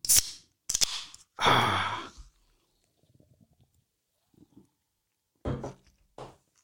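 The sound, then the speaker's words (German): A bottle of cola is opened: a few sharp bursts of hissing fizz as the gas escapes, followed by quiet small clicks and knocks, then another couple of brief hisses near the end. “Ich muss mir jetzt erstmal ein Bier aufmachen.”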